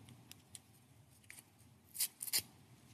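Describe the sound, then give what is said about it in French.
A card is torn by hand. A few faint ticks come first, then a cluster of short, crisp ripping bursts near the end, all quiet. “Si on déchire la carte, attendez, je vais la déchirer de ce côté.”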